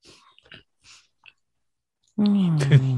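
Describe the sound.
A human voice imitates a horrible mole rat dog creature ridden as a steed in a sewer fantasy game, giving a loud, harsh, buzzing growl with a slightly falling pitch. It follows a few faint clicks and breaths.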